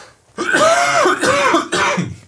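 Throat clearing and coughing come in three rough, raspy bursts with gravelly, voiced rattling, each lasting about half a second and fairly loud, separated by short pauses, with no speech.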